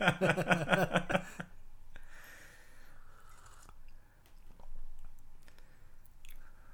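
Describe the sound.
A crisp food is bitten and chewed during a taste test. A brief voice comes first, then soft crunches and wet chewing with scattered clicks, fairly quiet and irregular.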